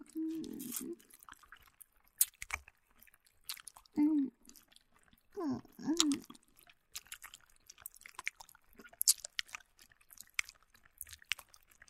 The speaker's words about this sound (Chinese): 我嘴里含着棒棒糖的声音